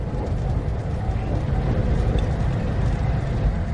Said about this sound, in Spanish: Aquí sigo, en este tren. Un tren que me lleva al lugar en el que quiero estar ahora.